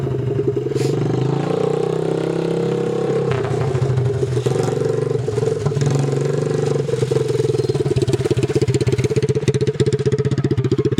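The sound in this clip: A vehicle engine roars at full speed along a gravel road with loose rolling gravel, a loud, continuous throbbing drone that holds fairly steady throughout.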